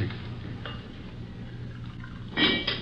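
Dishes clink faintly as coffee is served at a table. A few light, bright chinks of crockery stand out over a low, steady hum, with the loudest pair near the end.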